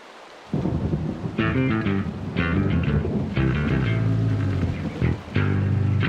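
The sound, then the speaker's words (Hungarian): Thunderstorm rumble with rain, a low, continuous and fairly loud roll that swells and surges several times, with no voices. “Süvölt a zivatar a felhős ég alatt.”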